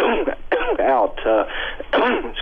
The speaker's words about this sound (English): Sorry for my cough.